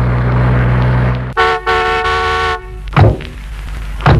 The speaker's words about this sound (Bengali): ও ওই তো গাড়ির শব্দ এলো দেখছি আমি